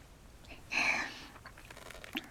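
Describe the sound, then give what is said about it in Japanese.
A wet licking sound on someone's neck: one moist, smacking burst of about half a second, followed by a few faint wet clicks and mouth noises. There is no talk. “首筋舐められるのも気持ちいいでしょ。”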